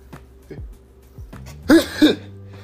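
Throat clearing and coughing from allergies: a few low, throaty grunts, then two loud, rough bursts close together.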